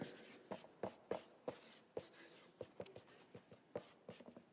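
Writing on a bin lid makes many short, scratchy strokes in quick, irregular bursts. The sound is faint, with no talking over it.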